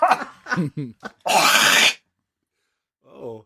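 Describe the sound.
Coughing from a tickle in the throat: a harsh, breathy burst follows a few short vocal grunts, then silence and a brief voice at the end.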